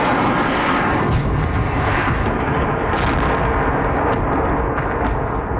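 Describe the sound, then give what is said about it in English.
Drones flying through the sky over the Ukrainian capital during a missile and drone attack give a constant, loud engine drone, with a few brief sharp bursts standing out above the steady roar. “That's the sound of drones flying through the sky over Kyiv.”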